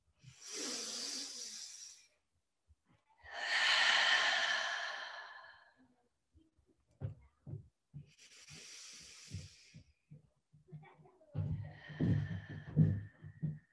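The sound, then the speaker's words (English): Three deep breaths taken during a guided relaxation exercise, each a soft, airy hiss lasting about two seconds, separated by short pauses of quiet. “Take three deep breaths to feel how in just three breaths, you can brighten and lighten and brighten and lighten yourself.”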